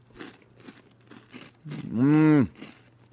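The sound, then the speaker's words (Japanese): Crunchy senbei rice crackers are being eaten, heard as a few soft crisp crunches. A loud drawn-out voiced hum follows and then breaks off. “やっぱりリスナーさんはね、美味しいせんべいを知ってますよ。”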